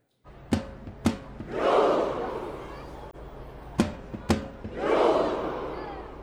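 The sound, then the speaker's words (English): Tens of thousands of fans gather in Oslo to welcome Norway's national team home. Their loud roar swells twice, and each surge is preceded by a pair of sharp, loud hits. “One last time, tens of thousands of fans gathering in Oslo to welcome the team home.”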